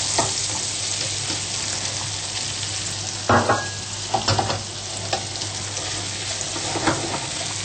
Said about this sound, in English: Let that melt and then I'll be adding the sliced mushrooms.